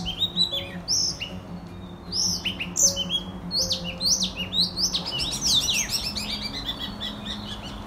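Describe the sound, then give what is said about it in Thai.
An oriental magpie-robin, a common garden bird, sings a long run of varied, clear whistled phrases and chirps, some sweeping up and down, loud over a low steady background hum, with no talk. “นกกังเขนเนี่ยผมถือว่าเป็นนกสามัญประจำบ้านเลยนะครับเราจะได้ยินเสียงร้องเจอเจ้าเป็นท่วงทำนองของมัน”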